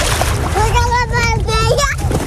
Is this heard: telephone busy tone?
no